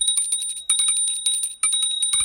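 A small bell rings in quick repeated strikes. Each strike is bright and high with a lingering metallic tone, and the rings come in three clustered bursts with no talk.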